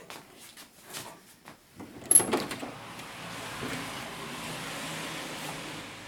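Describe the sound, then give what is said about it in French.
An electric roller shutter closes with a few faint clunks and taps, then a sharp rattle, followed by a steady low motor hum that runs to the end. “Un volet fermé. Allez, à l'autre.”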